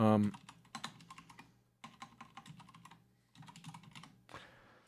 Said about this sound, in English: I typed in coup wrong.